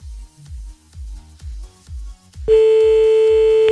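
Telephone call being dialed: five short, low pulses at an even, steady rhythm, then a loud, continuous line tone that holds to the end.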